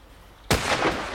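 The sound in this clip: A shotgun fires at a clay pigeon: a single sharp, loud blast cracks out of low background noise, followed by a broad, rumbling decay that lingers to the end.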